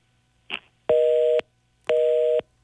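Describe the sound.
A telephone busy signal after a rejected call: two loud, steady tones of about half a second each, evenly spaced and alone over faint line hiss, with a short blip before the first.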